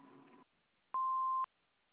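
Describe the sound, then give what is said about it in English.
A voicemail message tone: one clean electronic beep at a steady pitch, lasting about half a second, sounding alone after a faint trailing sound. “reached the voicemail of Jim and Cheryl. Please leave your message at the tone.”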